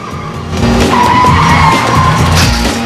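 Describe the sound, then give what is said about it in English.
A 4x4 car hurtling into busy traffic, with loud, sustained engine roar and skidding tires throughout, no voices. “and the 4x4 hurtles into the traffic.”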